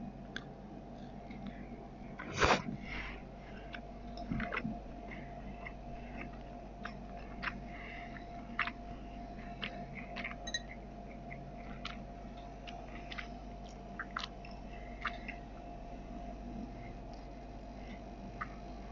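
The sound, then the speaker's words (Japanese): Quiet chewing of inari sushi, sweet fried tofu pouches filled with vinegared rice, with many small soft clicks and one louder bite early on. “お裾分けいただいたお稲荷さんをまずお稲荷さんだけ食べてみたいと思います。いただきます。”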